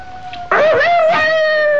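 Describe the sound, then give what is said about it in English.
A seven-week-old puppy whines and howls in a loud, sustained, wavering wail. It jumps in strength partway through, then holds a steady, high, tonal cry. “You'll have to excuse the dog listeners, but he doesn't know we're on the radio.”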